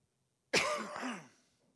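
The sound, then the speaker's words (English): A single harsh cough bursts out suddenly and rasps for under a second before trailing away, loud and alone with no talk around it. “I'm sorry for all this gagging and coughing, but it is what it is.”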